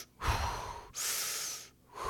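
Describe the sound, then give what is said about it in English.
A man imitates slow, controlled box breathing: two long, steady breaths of airy rushing, separated by a brief pause, then a third breath begins. The sound is moderately loud and plays alone, with no talk. “he just like does the box breathing where he just takes four, you know, he starts taking that 4 seconds in, 4 seconds out.”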